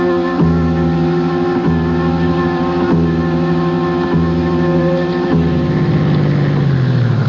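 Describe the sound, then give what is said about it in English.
A car engine runs with a steady, loud hum and a faint regular pulsing. Toward the end its pitch sinks and the engine winds down as it is switched off while the car waits. “I'm turning the engine off while I wait for you.”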